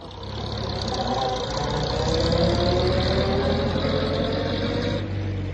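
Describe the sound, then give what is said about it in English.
Car engine running as it drives off down a drive: a steady, rumbling, mid-pitched drone that holds level and drops off sharply near the end. “As John drove her off down the drive”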